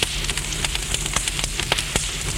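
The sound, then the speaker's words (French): Flames burning leaves crackle with many sharp, irregular pops and snaps over a steady hiss, with no voices. “Des flammes brûlent les feuilles, même celles que Stéphane, terrifié, tient à la main.”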